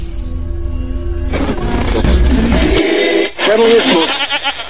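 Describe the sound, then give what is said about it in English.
A barnyard animal sound effect gives a short, wavering, goat-like bleat late on, after a stretch of louder mixed sound. “I mean, who could not like a show that has barnyard animal sound effects?”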